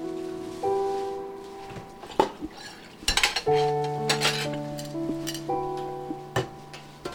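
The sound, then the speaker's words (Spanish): Dishes, pots and cutlery clink and clatter as they are washed, with several sharp knocks and scrapes at irregular intervals over several seconds and no voices. “Yo termino de lavar esos trastes.”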